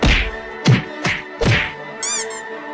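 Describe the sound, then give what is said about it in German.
Cartoonish punch impacts in a fight that knocks an opponent out: a few loud, hollow thwacks land in quick succession. A brief warbling, wobbling tone follows. “Du hast Cobra Khan mit einem Schlag außer Gefecht gesetzt.”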